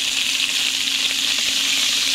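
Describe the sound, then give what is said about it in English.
Shrimp sizzle as they fry in a pan with garlic sauce, an even, continuous crackling hiss that holds steady throughout with no voices. “Oh, things are sizzling now. Yeah, now we're cooking up. Now we're cooking.”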